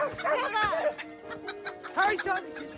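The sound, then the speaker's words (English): Hens cluck and squawk during a chase, giving two bursts of sharp, pitched squawks with rapid clucking and rattling ticks in between, amid voices. “She drops to her knees with a look of foreboding as the hen chase goes on around her.”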